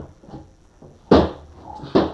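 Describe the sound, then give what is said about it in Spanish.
A drawer being pulled open, heard as two loud, sharp thumps about a second apart, preceded by a few softer knocks. “Ya abrí la gaveta, frijol. Ya se abrió, mire. Ya se abrió.”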